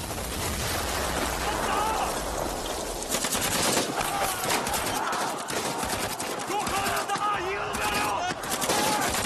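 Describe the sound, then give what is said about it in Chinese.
Heavy machine-gun fire from soldiers strafing a fleeing enemy on a battlefield: dense, continuous rattling bursts that overlap into a loud, unbroken barrage. “被炸晕了的美军在战士们猛烈的扫射下仓皇溃逃。”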